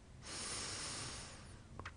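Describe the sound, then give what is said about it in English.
Slow, deep inhale through the nose during a guided breathing exercise, a soft, airy hiss that swells and lasts about a second, faint and alone. “So breathing in through the nose”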